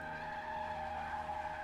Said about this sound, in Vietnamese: xe của hắn hình như là bị mất phanh. Nó cứ như vậy lao thẳng về phía trước.